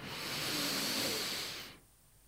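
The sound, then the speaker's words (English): A slow, deliberate breath drawn in through the nose during a guided breathing exercise. It is a steady, airy hiss lasting nearly two seconds, then it fades into quiet. “Inhale again.”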